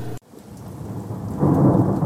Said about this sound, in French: L'orage. Des nuages chargés en pluie. Un spectacle électrique.